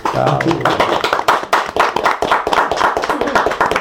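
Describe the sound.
Applause for the cooks after a lunch of pork, brisk dense hand clapping from a small group, loud and irregular, continuing steadily with a few sharper claps and faint voices underneath.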